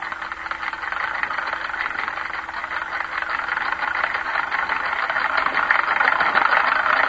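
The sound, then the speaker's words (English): A spinning wheel turns to spin flax into thread, giving a steady, continuous whirring rattle that holds an even rhythm and grows slightly louder toward the end, with no voices. “The next sound you hear will be that of a spinning wheel.”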